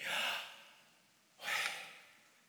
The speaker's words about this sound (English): Take a deep breath in.